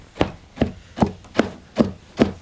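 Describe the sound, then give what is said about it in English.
Big combs stab a woven wool rug on a loom to pack the fibres down, giving six evenly spaced, dull thudding beats in a steady rhythm with no talk. “They take these big combs to sort of stab the end of the rug. It's that sound you're hearing right now, to push down the pattern they're making so all of the fibers come together and the rug is nice and snug.”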